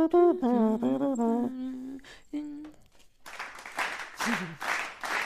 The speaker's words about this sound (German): Ach, aber das war der Slow Clap. Nee, das war eine Zugabe.